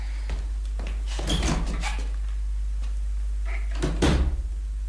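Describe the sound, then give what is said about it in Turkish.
Door opening in a radio drama: a few clunks and scraping knocks from the door and its latch, with a sharper knock near the end and no voices. “Aç kapıyı”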